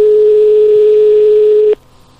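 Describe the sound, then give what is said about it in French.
A steady telephone line tone sounds while a call is placed to a nightclub. A single unbroken tone holds for almost two seconds, then cuts off abruptly and leaves only a faint hum. “On appelle le club discothèque.”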